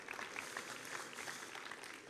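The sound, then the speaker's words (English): Applause for a church worship team at the end of their set, faint and steady, with scattered clapping. “Thank you, worship team. You guys, how good's our worship team? Let's give a big round of applause.”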